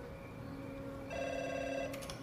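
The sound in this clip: An unanswered telephone rings in a cold, lifeless house: a steady electronic ring that turns brighter and fuller midway, with no voices.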